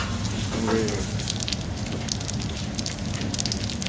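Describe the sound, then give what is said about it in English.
Gyoza sizzling in a little oil on a hot plancha griddle, a steady, dense hiss with fine crackles that stays even in level from start to finish. “So now the gyoza is going to cook on the plancha.”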